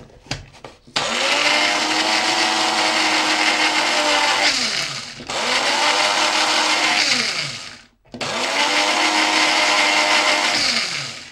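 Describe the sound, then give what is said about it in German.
A kitchen blender mixing olive oil with pepper runs in three loud, steady whirring bursts, its motor note winding down and pausing twice before starting up again. “das gleiche gilt eigentlich für Pfeffer. Schluck Olivenöl dazu. Und dann mixen wir das Öl erstmal auf.”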